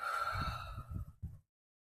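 A deep inhale and exhale during a guided relaxation: a soft, breathy rush of air swelling and ebbing, cutting off sharply and then falling into silence.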